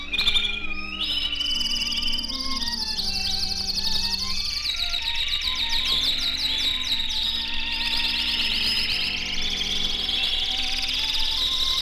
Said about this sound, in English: For their opening number, our master radio canaries wing their way to a little Spanish town